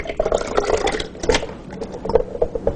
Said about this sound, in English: So we're going to go ahead and get started. I'm going to add some water and our mushrooms.